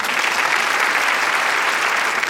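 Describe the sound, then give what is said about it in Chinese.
An audience breaks into applause, a loud, dense, even wash of many hands clapping at once that holds steady throughout, with no voices. “姑父这个男人真的应该我们给他一些掌声”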